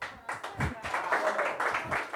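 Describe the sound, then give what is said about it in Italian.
A comedy night audience applauds in short, uneven bursts of clapping that rise and fall, with a few voices among them. “Ma ha preso un applauso, ma cosa vuoi?”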